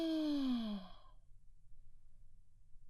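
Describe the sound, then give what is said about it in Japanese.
One slow, audible exhale from a person during a guided breathing exercise: a voiced, sigh-like breath falling in pitch for under a second, then near silence. “息を吐いて、もう一回息を吸って”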